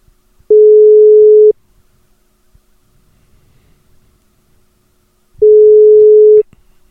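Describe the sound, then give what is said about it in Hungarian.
While a prize winner is being called, two steady, mid-pitched telephone ringback tones sound, each lasting about a second. Roughly four seconds of near silence separate them. “Megtartottuk a sorsolást, és most pedig szépen felhívom mind a 8 nyertest.”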